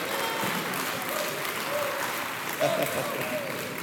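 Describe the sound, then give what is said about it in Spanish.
A church audience applauds during a sermon, giving a strong round of clapping in praise. Thick, continuous applause from many people stays steady and full throughout. “Dale un aplauso fuerte a Jesús”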